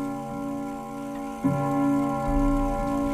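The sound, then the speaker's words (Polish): Ticking of a cabinet clock from 1935, of a kind once common in post offices, faint and slow over a steady ringing tone that persists throughout. “Zegar szafkowy z 1935 roku. Wiele takich zegarów stało w urzędach pocztowych.”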